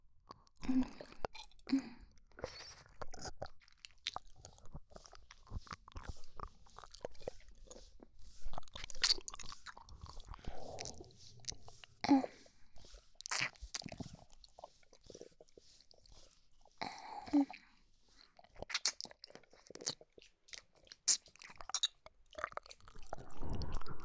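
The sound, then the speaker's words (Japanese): Wet ear-licking mouth sounds in an ASMR setting: many soft smacks, slurps and clicks that stay quiet and close throughout, with no speech. “耳舐めてあげるね。”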